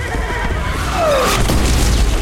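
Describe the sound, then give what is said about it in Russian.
An artillery shell whistles downward, then strikes a fortress wall with a heavy, crashing boom, sending bricks flying. The blast leaves a loud, rumbling roar. “Снаряд попадает в стену крепости, летят кирпичи.”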